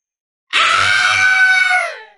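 A monster lets out a long, shrill, vicious scream that bursts in abruptly and holds for nearly two seconds at full strength, with a brief low rumble underneath, before tapering away.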